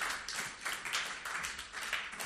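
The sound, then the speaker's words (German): Applause from a church audience as two people are welcomed on stage: dense, steady clapping that holds at an even level throughout, with no voices over it. “gebt ihnen mal einen Applaus”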